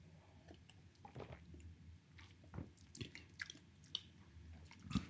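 Quiet, wet chewing of a creamy orange-flavoured food. Many soft, irregular smacks and squishy mouth sounds are heard alone, with no talk.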